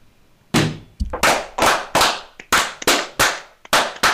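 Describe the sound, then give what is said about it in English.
A ceremonial gun salute volley fired by a group of Masonic brethren: many sharp, loud cracks in a ragged, rapid series, each with a short decaying tail, and a few weaker pops between the main shots. “Brethren, right hand to arms. To arms. Ready. Ready. Aim. Aim. Fire. Good fire. Fire all. Together, brothers.”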